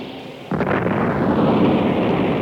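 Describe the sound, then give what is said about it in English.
An explosion blast erupts suddenly out of low hiss, its abrupt onset swelling into a loud, broad roaring rumble that holds steady to the end without fading. “there is a devastating blast of searing light which pulsates deep into the furthest reaches of space before forever fading from view”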